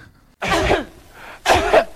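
Two harsh, loud coughs from a singer in a boogie-style song recording about the flu. The coughs come alone and close together, separated by a brief quiet gap.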